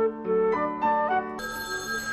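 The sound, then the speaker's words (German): A telephone rings with an electronic, melodic ringtone: a quick run of stepped notes, then a brighter, steadier tone that holds to the end, fairly loud and with no voices over it. “Wer ruft denn jetzt um 11:45”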